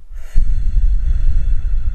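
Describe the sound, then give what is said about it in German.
A person breathing in and out during a guided breathing exercise: after a brief silence, a sudden loud, breathy rush of air begins and continues steadily to the end, with no speech. “Atme mit mir ein und atme mit mir aus.”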